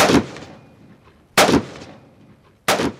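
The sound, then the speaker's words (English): Three sharp gunshots from National Guard soldiers training at a firing range near Sharm el-Sheikh on the Red Sea desert coast. Each loud crack comes roughly a second and a quarter apart and trails off in a fading rumble. “Here in the town of Sharm el-Sheikh, the only shooting to be heard is that of some National Guard soldiers practicing at a firing range.”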